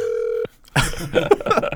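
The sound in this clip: A telephone ringback tone plays while a call is being placed: a steady, mid-pitched tone holds briefly and then stops. After a short gap, a louder and more mixed burst of sound follows.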